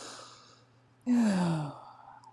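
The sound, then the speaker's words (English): A single deep, breathy sigh, moderately loud, sinks slightly in pitch as the air is pushed out. Faint steady hum comes before it. “Let's just all take a collective deep breath.”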